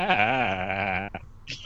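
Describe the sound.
A person imitating a goat, with a long, nasal, wavering 'baa' bleat held for about a second, then a brief broken-off sound and a short higher squeak.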